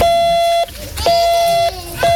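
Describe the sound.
Morse code beeps come from an amateur radio device at a lighthouse radio event in Westkapelle: a loud, steady mid-pitched tone sounds in three long dashes separated by short gaps, over low background noise.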